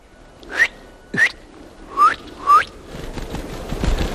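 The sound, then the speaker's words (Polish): Tits chirping at a bird feeder: four short, bright chirps, each falling slightly in pitch and spaced apart, followed by soft, steady background noise. “Sikorki.”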